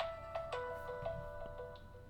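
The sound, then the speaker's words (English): A phone rings with an incoming call, a faint electronic ringtone of repeating short tonal pulses at a steady pitch. “did your phone die? I don't know. Mm-mm. That's somebody called. Oh, turn that. Don't want to interrupt the podcast.”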